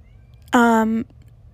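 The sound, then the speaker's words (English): A single cat meow from a female house cat shut outside a room and wanting in: one clear, fairly loud, drawn-out call of about half a second, holding a steady pitch before cutting off. “Can you guys hear that? That's my cat meowing. She wants to come in my room so bad.”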